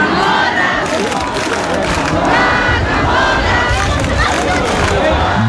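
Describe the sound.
Crowd shouting and cheering at a traditional, centuries-old town festival in Baza, Spain. The dense mass of voices roars loudly and without a break throughout.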